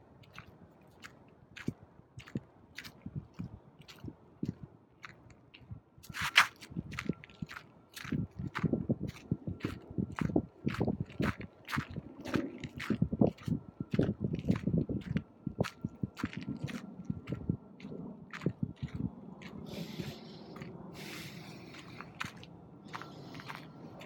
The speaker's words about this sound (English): So just while I'm walking, just parked a little bit further while I'm walking to the facility